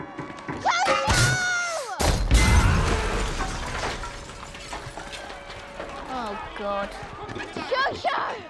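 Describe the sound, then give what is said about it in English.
Film sound effect of an RPG being dropped and firing in a war invasion scene: a sudden loud, broad blast amid metallic clatter and thuds, with voices speaking around it. “And then by the time that the invasion actually happened, when Yorki drops the RPG and it just like shoots out.”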